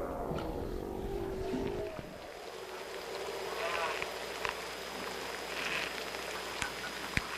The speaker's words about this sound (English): That warbly sound you hear in the background, that's the sound of the ocean around their cabin.